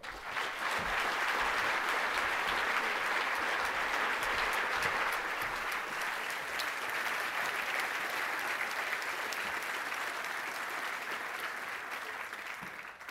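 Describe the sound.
Warm audience applause welcomes a speaker to a Hay lecture on climate change, a dense, steady clapping that carries on for about thirteen seconds and tapers slightly near the end.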